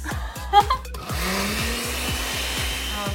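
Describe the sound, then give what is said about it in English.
A blender runs at full power, blending frozen strawberries with vanilla yogurt. After a couple of brief knocks it settles into a loud, steady motor roar that holds to the end. “So first we're gonna put our frozen strawberries in the blender. Now we're gonna get our vanilla yogurt in as well. Now we're gonna blend it all together.”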